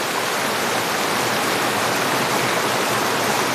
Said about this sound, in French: Non, mais c'est bien, c'est exotique d'entendre ce cours d'eau, hein, ce flux. Ça fait du bien, puis ça rafraîchit un petit peu.